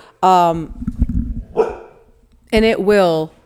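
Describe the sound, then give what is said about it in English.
An excited dog barks in a few loud, harmonic, howling barks, two clusters split by a pause with softer scuffling noise between them. “Okay, anyway, my dog's losing his mind now.”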